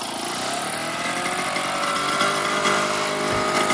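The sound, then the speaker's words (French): A Solex moped engine runs, an old, well-used machine from a make that dates to the early 1940s, giving a steady, fairly loud buzzing drone that stays even throughout, with no voices. “Oui, c'est pas bien nerveux. Hein. C'est une tondeuse. Notre vélo Solex n'est pas neuf.”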